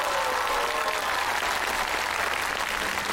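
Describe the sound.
Steady, fairly quiet applause for the winning teams at an award presentation at a district culture and tourism event. The clapping continues evenly without pause for about three seconds.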